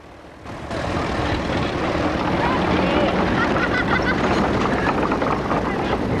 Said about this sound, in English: The tractor disappears round the corner.